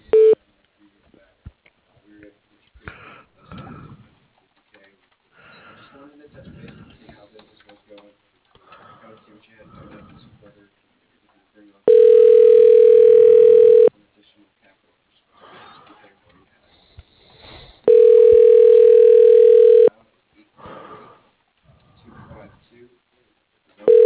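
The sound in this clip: An outgoing call to an office line rings through before reaching voicemail, with two steady, loud ringback tones about two seconds each. People talk before and between the tones.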